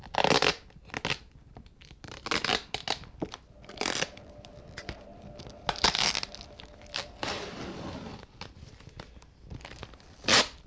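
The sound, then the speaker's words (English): A plastic wrapper is torn open and crinkled in scattered, irregular bursts of sharp crackling and ripping, with quiet gaps between the handling noises. “Oh, it's just a plastic thing. Tear off with that.”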